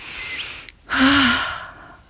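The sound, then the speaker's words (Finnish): A person breathing in deeply, one long inhale that starts with a sharp gasp-like rush and a brief voiced edge, then fades out over about a second. “Mä hengitän.”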